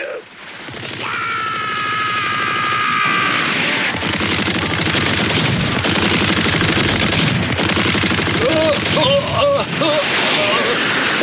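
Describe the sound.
Gunfire from guns being shot in an animated series: loud, dense, rapid automatic fire that runs almost without pause, with voices heard under the shooting.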